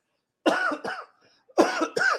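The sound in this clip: Coughing from a tickle in the throat: four short, voiced coughs grouped into two pairs with a brief pause between them, fairly loud against a silent background.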